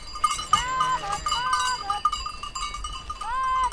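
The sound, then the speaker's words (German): Sheep bleat on an alpine pasture in the Swiss Alps as they graze behind the cows, with several wavering, mid-pitched calls over constant bell tinkling and soft background rustle. “Die Schafe gehen langsam hinter den Kühen her und grasen nach.”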